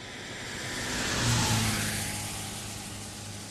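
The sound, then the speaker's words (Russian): Car engine quietly pulling away out of a courtyard, a low rumble that swells to a peak and then slowly fades, fairly faint with no talk. “Мы тихо выехали из дворика, послужившего нам укрытием, и спокойно въехали в ворота сервиса.”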